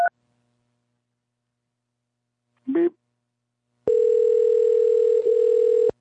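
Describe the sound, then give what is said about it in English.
A telephone answering machine beep on a hotel reservation line: one steady, sustained mid-pitched electronic tone lasting about two seconds near the end, preceded by a short, faint burst of sound. “Beep.”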